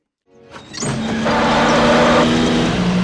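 A car engine sound effect for a comedy skit, rising out of silence and swelling into a loud, steady roaring drone that holds to the end.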